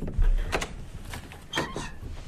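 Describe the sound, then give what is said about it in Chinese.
A door eased open quietly at night in a room, giving a few soft, brief knocks and scrapes of the handle and frame, faint and without talk. “等孙老师查完房后，天阳先悄悄打开了房门。”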